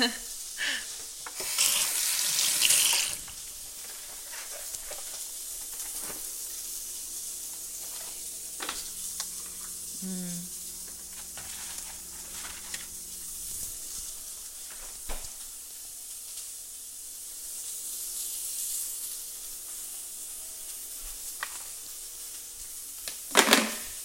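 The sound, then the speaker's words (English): Burger patties sizzle and fry in a hot pan. An early burst of loud, bright hissing settles into a steadier, quieter sizzle that carries on with a few faint clicks. “once that one started to heat up good, we can just put the patties in, and they'll start to cook pretty quickly”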